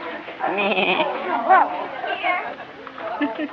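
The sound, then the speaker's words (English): A young child imitates a cow, producing drawn-out, wavering moo-like vocal sounds that rise and fall for several seconds. “He likes making animal sounds. Yes. You're making cow.”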